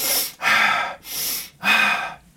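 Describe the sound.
Rapid, deep breathing from a deliberate hyperventilation exercise: four forceful breaths in quick succession, each a loud, airy rush separated by brief gaps, with no talk.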